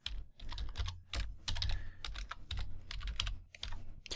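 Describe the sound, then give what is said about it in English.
Rapid typing on a computer keyboard: dense bursts of crisp key clicks run almost without pause, with a few brief gaps between runs and no voices. “I'm going to type it in.”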